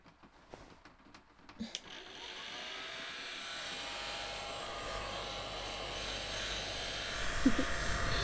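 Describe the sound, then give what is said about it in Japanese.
A hair dryer whirs steadily while drying wet hair, starting after a few faint clicks and taps. The airy hum holds constant, then grows a little louder near the end. “だけど髪が濡れたままなのはダメ。いらっしゃい、乾かしてあげるわ。”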